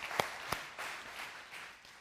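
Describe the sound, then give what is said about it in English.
A church audience claps: two sharp, distinct claps are followed by a soft, diffuse patter of applause, faint throughout. “All right, all who love Jesus, clap.”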